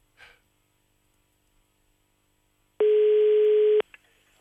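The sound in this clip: A telephone rings while a call to a neighbour is placed, with one steady electronic ringback tone about a second long at a fixed pitch, loud against near silence before and after.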